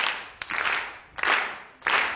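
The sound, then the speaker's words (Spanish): A class claps a steady quarter-note beat together during a lesson on note values. A few loud, evenly spaced group claps sound in unison, each one a broad burst that decays before the next. “Si les digo que la negra vale un pulso, aplaudimos todos pulsos como antes. Vamos, negras, a ver.”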